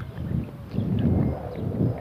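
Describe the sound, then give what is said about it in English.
A light, cool breeze blows against someone walking straight into it outdoors among bushes. It comes as soft, low rumbling gusts that swell and ease a few times, with no other distinct sounds. “There's the wind. Ah, oh. Yeah, feel that.”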